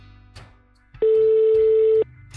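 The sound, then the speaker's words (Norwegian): A telephone call is placed, marked by a single steady electronic tone that lasts about one second at an even pitch. Faint softer sounds come just before and after it. “For å forstå mer av dette, tar vi en telefon til Kurt Alier.”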